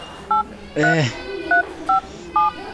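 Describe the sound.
Telephone keypad tones as a number is dialed: four short, bright two-tone beeps at an uneven pace, with a brief burst of voice after the first beep.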